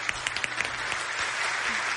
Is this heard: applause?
yes